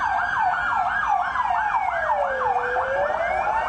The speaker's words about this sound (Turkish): İhbar üzerine olay yerine çok sayıda itfaiye, ambulans ve polis ekipleri sevk edildi.